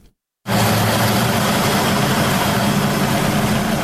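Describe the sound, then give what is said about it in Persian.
A small electricity-generating turbine in Doab village, Khinjan district, Baghlan, sets in abruptly after a brief silence. It then runs as a loud, steady mechanical roar with a constant low drone underneath. “این توربین کوچک در روستای دوآب ولسوالی خنجان ولایت بغلان برای حدود 50 خانواده انرژی برق تولید می کند.”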